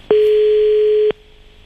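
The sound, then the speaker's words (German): A single steady telephone tone sounds for about one second as a call is being placed, then cuts off, leaving a quiet line with a faint lingering hum. “Pass auf, nochmal anrufen.”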